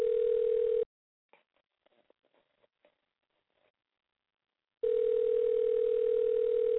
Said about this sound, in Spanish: No. Sigue timbrando. A ver si nos contesta.